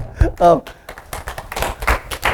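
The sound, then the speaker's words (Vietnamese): An audience claps briefly after a voice speaks, a short patter of uneven hand claps. “Giỏi quá, vỗ tay.”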